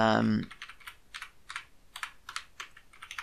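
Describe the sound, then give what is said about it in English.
Typing on a computer keyboard while entering code: after a brief voice, a steady run of light, quick key clicks follows in many uneven bursts. “So I'm going to type in”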